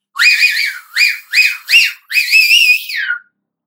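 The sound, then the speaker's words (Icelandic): A loud human whistle rings out alone in five tuneful phrases, the first and last long and the middle three short, each with a bright, wavering pitch that warbles up and down. “Blístrið ómaði fallega og barst langt út í loftið.”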